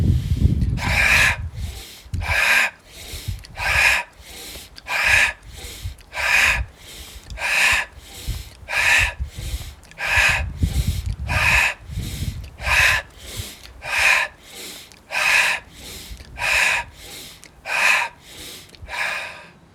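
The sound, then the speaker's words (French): Many deep, hissy breaths come in and out in a slow, even rhythm during a yoga exercise, inhaling while lowering the arms and exhaling while raising them. The loud breath sounds alone, without talk. “On va cette fois-ci inspirer en descendant et souffler en montant les bras.”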